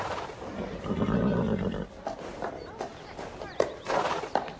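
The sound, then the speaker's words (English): A horse neighs with a loud, drawn-out whinny early on, followed by a few shorter, softer calls and snorts. “Keep that horse away from me. It's cursed.”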